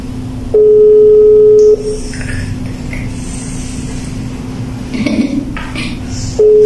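A WhatsApp call rings out: a steady mid-pitched ringback tone sounds twice, with a long pause between, over a low background hum and faint clatter.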